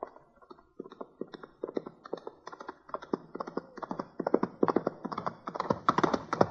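A cowboy's horse gallops hard, its hooves clip-clopping in a fast, rapid rhythm of many beats that grows steadily louder toward the end.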